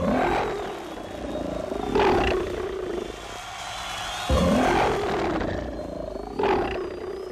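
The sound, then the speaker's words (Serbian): Lions roaring in an arena, with repeated deep rumbling roars that swell and fade in long waves, one after another, loud and continuous. “Lavovi već počinju svoj krvavi posao, ali... Gle, jedan u tome ne učestvuje.”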